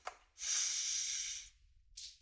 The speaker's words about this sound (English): Well, let's take a deep breath together.